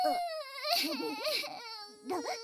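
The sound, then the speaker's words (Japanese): A voice fakes crying with exaggerated, high-pitched sobbing and whimpering. Wavering wails come in a few bursts with short breaks between them. “騙されちゃダメだよお兄さん。これ絶対嘘泣きだから。”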